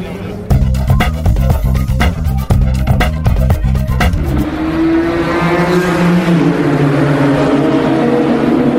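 Race car engines roar at Le Mans: loud, choppy revving with rapid pulses for about four seconds gives way to a smoother, sustained engine roar with a high whine that runs to the end.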